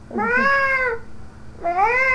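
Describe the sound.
A cat meows twice, in two loud, clear, tonal cries with a brief pause between them. The first meow is longer and gently falling, and the second swoops upward at its start.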